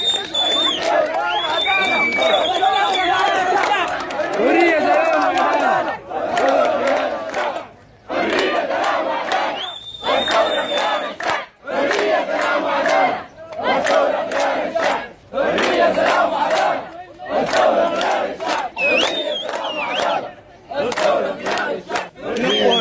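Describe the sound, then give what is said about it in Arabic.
Students of Al-Fajr University College chant protest slogans by the roads near their college, loud rhythmic bursts of many voices broken by short pauses and repeated across the whole stretch. “وأقلق طلاب كلية الفجر الجامعية الطرق المجاورة للكلية ورددوا هتافات تندد بالطوارئ وتطالب بالحرية والسلام والعدالة وتندد بقمع المتظاهرين. وردد الطلاب هتافات”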